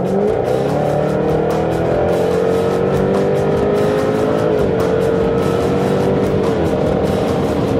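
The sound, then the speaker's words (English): A 495-horsepower V8 race car accelerates hard down a straight of a twisty road course, heard from on board: a loud, continuous, rasping engine roar that stays dense and steady throughout. “Okay, what you hear is 495 horsepower V8 that's pushing us up to 140 miles an hour on that straight.”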